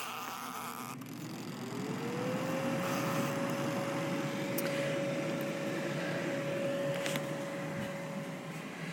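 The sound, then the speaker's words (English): An electric deep fryer switches on while fries are being made. Its hum climbs in pitch over the first two seconds, then holds as a steady drone with faint background noise. “So here we go. Turning on the fryer.”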